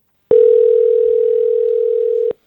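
A telephone dial tone sounds while a phone call is being placed: one steady, loud, unwavering tone lasting about two seconds, starting and cutting off abruptly.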